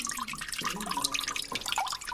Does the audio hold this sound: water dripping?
yes